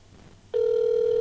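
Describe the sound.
An outgoing telephone call rings unanswered. After a quiet stretch, a single loud, steady mid-pitched tone starts abruptly and holds unbroken to the end.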